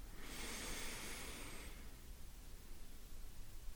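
A deep inhale, one long breathy rush of air that swells and holds briefly before fading into quiet.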